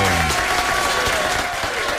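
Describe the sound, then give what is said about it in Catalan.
An audience applauds at a music event, a loud and continuous wash of clapping and crowd noise from start to finish, with a voice briefly heard at the start. “Un aplaudiment, sí, senyor.”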